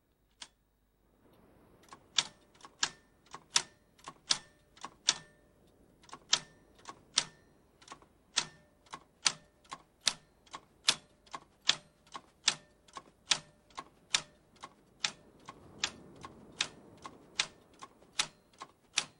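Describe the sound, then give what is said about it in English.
A single typewriter key is struck over and over at a desk in a cottage at night. Many crisp, faint clacks come at a steady, even pace, with no voices. “slouches at the desk and hammers repetitively on one typewriter key. A string of A's appears on the blank page.”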